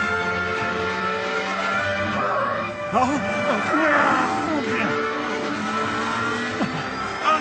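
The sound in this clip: A car engine accelerates, revving loudly and continuously throughout with a rough, rising drone, while people talk over it.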